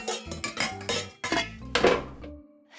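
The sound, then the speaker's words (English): Clattering metal of a baking sheet of chocolate chip cookies being pulled out of an oven, a few sharp clanks and scrapes of pan against rack in an uneven rhythm, with no talking. “I'm about to pull a sheet of Primo chocolate chip cookies out of the oven.”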